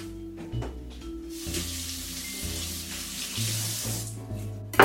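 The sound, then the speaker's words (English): Celery is rinsed under running tap water: a steady, moderately quiet hiss and splash of flowing water lasts throughout, with low, stepping musical tones underneath. “celery can kind of just hold a lot of dirt in the in-between layer, so I'm gonna give that a quick rinse.”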